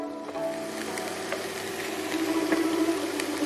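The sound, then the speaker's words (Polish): Sizzling of chicken frying in a pan with vegetables and bean sprouts, a steady crackling hiss with scattered pops that grows slightly louder toward the end. “i przesmażamy. I zaraz będziemy dodawać właściwy sos. Teraz już sobie tak przesmażamy.”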